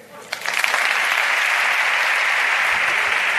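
A long ovation at the Seville Holy Week proclamation after a verse to the Virgen de la Caridad del Baratillo, with clapping that bursts in after a quiet start and then holds loud and unbroken to the end.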